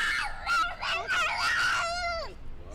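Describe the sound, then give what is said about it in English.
A young child screams in a tantrum, a shrill, wavering wail broken into a few bursts. The final long cry slides downward in pitch and trails off. “Hello, tantrum.”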